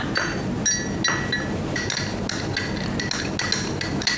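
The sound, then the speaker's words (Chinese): A spoon stirs a glass of water mixed with a perilla-seed tablet, producing many rapid, bright clinks against the glass over a steady background hiss. “全部倒进去。然后你把它搅拌一下。 搅拌。”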